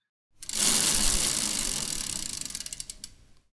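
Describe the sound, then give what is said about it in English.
Rapid ratcheting clicks of a spun prize wheel run dense and steady at first, then space out into separate ticks as the wheel slows and stops. “let's go ahead and spin that wheel”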